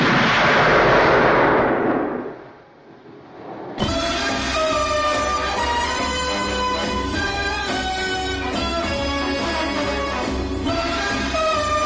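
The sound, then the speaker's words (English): Gunshot from the classic James Bond gun-barrel opening: a loud, booming blast that rings out and fades over about two seconds, then sustained orchestral music enters abruptly. “Tracks the figure of James Bond across the screen. Bond turns to face the camera and shoots.”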